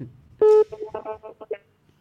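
Telephone keypad dialing tones ring out as a call is placed: one longer tone followed by a quick run of several short beeps, clear and fairly loud, then a brief quiet.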